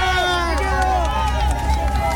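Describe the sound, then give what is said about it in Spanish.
Loud, continuous crowd noise as people push forward, following president-elect José Antonio Kast on his walk, with overlapping voices and talk layered throughout. “El audio ambiente que escuchas, Katy, que escuchan auditores, sí. Hay gente que nos empuja porque acá van avanzando con nosotros en la medida que nosotros también tratamos de seguir el paso del presidente electo José Antonio Kast.”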